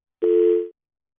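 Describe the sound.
A single telephone tone sounds after a dropped call to a radio show. It is one steady, mid-pitched beep of about half a second that starts abruptly, holds an even pitch and then cuts off, with silence around it.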